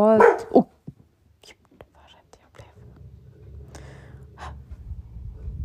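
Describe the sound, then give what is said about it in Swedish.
A female dog barking outside: a few faint, spaced barks over a low steady rumble, after a short breathy sound at the start. “nu hör min hund lite utanför. Hon ska vakta mig.”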